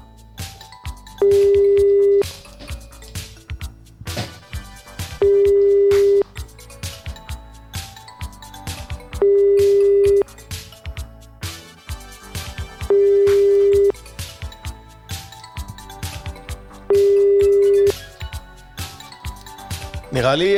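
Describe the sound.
Ringback tone of a telephone call ringing unanswered: five steady, mid-pitched tone bursts, each about a second long, repeating at even intervals of roughly four seconds, with people talking in the gaps between them.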